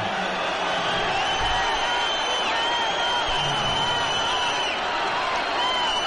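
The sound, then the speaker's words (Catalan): Crowd noise from spectators at a Penya basketball game, reacting to a referee's call on an unsportsmanlike foul: a dense, steady roar of many voices that holds at an even level throughout without a clear break. “Protesta el públic perquè l'antiesportiva en aquest cas a mi m'ha semblat bastant clara.”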